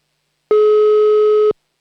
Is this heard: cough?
no